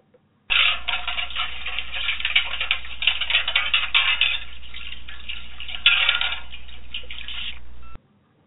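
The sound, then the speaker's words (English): Metal plates clatter and scrape in a metal wash tub on a stove, a busy, continuous jangle of clinks and rattles that starts abruptly, runs for about seven seconds and cuts off sharply. “But if you hear that sound, which is the noise made by washing metal plates in a metal wash tub on the stove, then you know it's time for a little housekeeping.”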